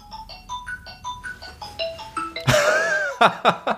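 An electronic phone ringtone signals an incoming call, a quick run of pure beeping notes that repeats, then gives way to louder noisy bursts and a few sharp rhythmic hits.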